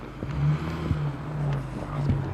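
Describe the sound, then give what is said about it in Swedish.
A car's low, steady engine hum on a forest road where logging work is under way, a constant drone marked by a few small knocks and no voices. “Vi får gå ur vägen för en bil här.”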